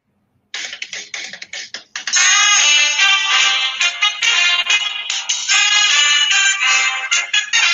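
Theme jingle opening a show: a loud, bright electronic tune of quick, pulsing notes that starts after a short silence and swells into a dense, sustained melody, with no talk.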